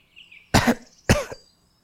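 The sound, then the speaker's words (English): Two sharp coughs in quick succession, each a short, loud burst, with near silence before and after. “You just coughed when you were saying that.”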